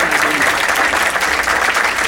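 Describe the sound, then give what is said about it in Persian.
An audience claps loudly in a dense, steady burst of applause that holds at an even level for the whole short clip. “قشنگ دست بزن اگه میزن.”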